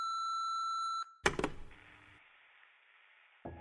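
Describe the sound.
A voicemail beep sounds as one steady pure tone lasting about a second, followed by a few sharp clicks, a quiet hiss, and one more brief click at the end.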